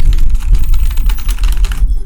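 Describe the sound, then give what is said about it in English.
Rapid typing on a computer keyboard: many quick, uneven keystroke clicks over a low rumble, continuing steadily for almost two seconds before stopping abruptly. “what teams have something at stake? That's what I just typed.”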